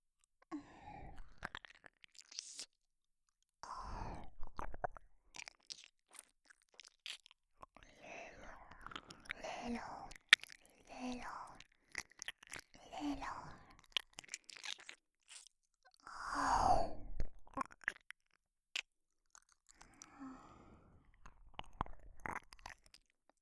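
Wet licking and mouth sounds on an ear in an ASMR role-play: many irregular, close smacks, clicks and slurps in uneven bursts, separated by brief silent gaps, some louder and crisper than others.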